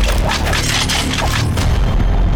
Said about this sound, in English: The ducks! They're shooting back at us!